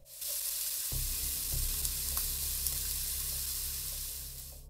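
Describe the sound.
Crispy bacon fries in a pan with a steady, loud hissing sizzle that runs throughout, over a low rumble, with a few small crackles and pops.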